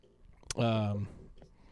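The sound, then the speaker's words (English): A cat yelling, a single short yowl with a steady, buzzy, moaning tone, fairly faint and heard on its own. “one of the cat's yelling at us, sorry.”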